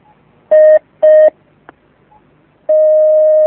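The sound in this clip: Telephone line tones as a caller is connected: two short loud beeps of the same pitch, a brief click, then a long steady tone that runs to the end.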